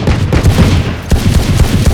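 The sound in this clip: Rapid gunfire in a video game: a dense, loud stream of overlapping shots with many sharp bursts standing out from a continuous booming rumble, and no talking.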